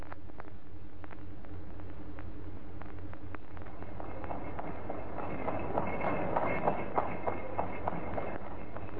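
A horse-drawn carriage clip-clops along in a steady, continuous run of hoofbeats over a low rumble, growing slightly louder toward the end.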